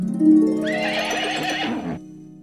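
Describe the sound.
A horse neighs once, a loud wavering whinny lasting about a second and a half that fades out, over a steady low hum.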